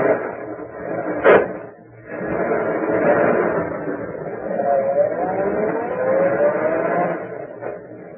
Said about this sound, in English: I'm driving away now.